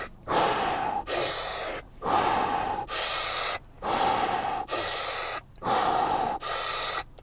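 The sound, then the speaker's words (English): Deep breathing exercise with full inhales and exhales of about 70 percent, done in a parked car; a steady rhythm of many forceful, rushing breaths follows closely one after another, loud and without any talk. “so it's like a big breath in, you inhale fully and then exhale about 70% out. It's this kind of breathing that makes you a little bit dizzy”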